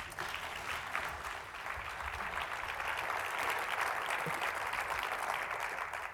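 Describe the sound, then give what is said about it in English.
Audience applause welcomes a moderator on stage at a Rumi poetry event: dense, steady clapping holds at an even level for the whole stretch, with no voices standing out. “But there was a last minute change, so please give him a very warm welcome.”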